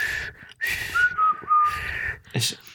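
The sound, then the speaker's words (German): A person with braces whistles: a thin, wavering tone broken into several short phrases, with plenty of breathy air noise around it and a brief airy burst near the end. “Es gibt Leute, die besser pfeifen. Ich kann nach innen pfeifen.”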